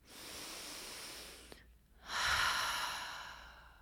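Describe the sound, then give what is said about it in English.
A deep breath: a long, airy inhale, a short pause, then a louder, fuller exhale that slowly fades. “Take a deep breath and surrender.”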